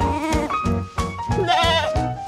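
A goat bleats several times in a row, with nasal, wavering calls that are loud and pulsing, the later ones showing a shaky, trembling vibrato.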